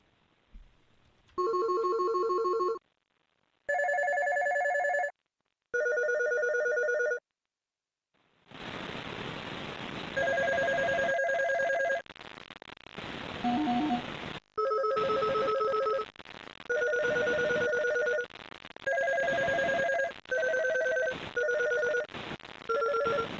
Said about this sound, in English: There's only so many times I can ring the phone at her.